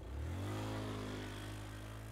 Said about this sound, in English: He makes this statement as he walks back to his UTV, starts it up, and drives away.